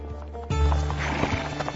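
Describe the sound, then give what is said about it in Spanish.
Mules loaded with supplies walking on a trail down to a canyon bottom, hooves clopping in an uneven rhythm, with a brief whinny-like call rising over the steps partway through. “Incluso hoy en día, las mulas cargadas con suministros son la mejor manera de llegar al fondo.”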